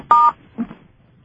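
Telephone dialing tones sound on a call-in line as callers ring in. A short, bright tone burst comes first, then a fainter, briefer sound follows, and quiet fills the rest.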